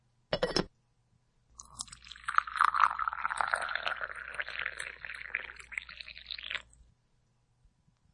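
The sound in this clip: Potato chips are crunched and chewed as a snack is eaten, a dense run of crisp crackles lasting about five seconds after a short isolated burst, faint and without talk.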